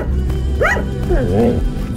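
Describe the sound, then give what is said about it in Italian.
A dog gives a few short, high yips and whimpering barks with wavering pitch over a steady low background hum. “Ma io riconosco questo abbaio.”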